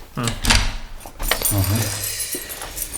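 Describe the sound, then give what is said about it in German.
Keys jangle and clink as an office door is locked, with metallic rattles and a short voice in the middle. “ich muss erst mal mein Büro abschließen.”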